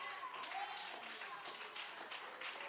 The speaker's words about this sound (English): Look at y'all standing up clapping.